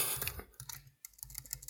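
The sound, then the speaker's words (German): Fingers type on a computer keyboard in quiet, quick, irregular clicks, with a short pause near the middle before the keystrokes pick up again. “Nee, ich tippe ja noch.”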